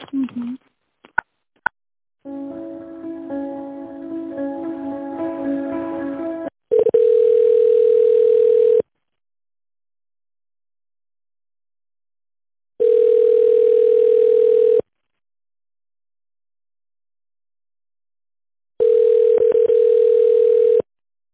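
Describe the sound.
Telephone line tones play while a call is being transferred. A short buzzy, harmonic stretch comes first, followed by three long, steady, mid-pitched tones separated by several seconds of silence.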